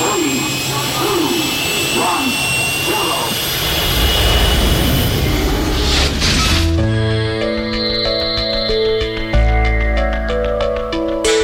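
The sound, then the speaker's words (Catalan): The spaceship La Fall Lluna takes off with a loud, jet-like engine roar that swells and churns for several seconds, then gives way to steady sustained tones. “Som a punt d'enlairar-nos amb la nau La Fall Lluna.”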